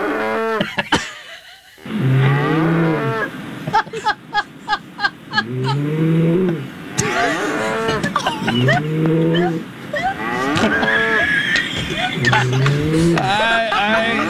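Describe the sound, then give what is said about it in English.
Cows mooing, recorded on an iPhone: several long, low, drawn-out moos with wavering pitch, separated by other noise, with a quick series of sharp clicks partway through. “And now here's the sound of actual cows.”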